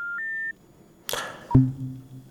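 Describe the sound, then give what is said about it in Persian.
An electronic beep as a caller's phone line is cut off: a steady high tone for about half a second, then a burst of rushing noise, a sharp click and a low lingering hum. “متاسفانه که تماس این شنونده ما قطع شد.”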